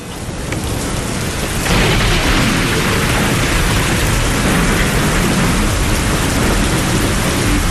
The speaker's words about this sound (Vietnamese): Bão rồi, bão rồi.